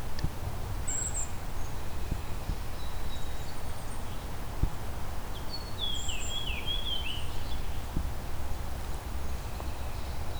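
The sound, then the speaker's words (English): Fox sparrow song: a short, melodic phrase of whistled notes, fairly faint over steady background hiss. A brief high call comes earlier. “That's the song of the fox sparrow.”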